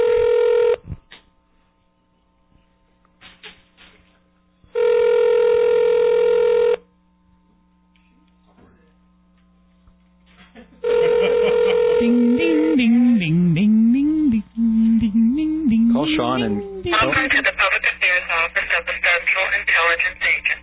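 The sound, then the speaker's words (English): Telephone tones sound as a number is dialed: a few separate tone bursts with silent gaps between them, followed by a voice talking over the phone line. “Oops, did I dial the wrong number? Let's try his home number.”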